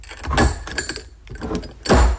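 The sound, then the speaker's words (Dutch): A herb jar meant for dried cannabis tops is opened and closed, giving a few rough scraping, twisting rubs of the lid, then a louder knock-like closing sound at the end. “Het openen en sluiten van mijn kruidenpotje.”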